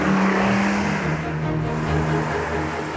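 A Jaguar coupe's engine drones during a test drive in a video game, a steady mid-pitched engine note with humming tonal layers, continuous and alone throughout.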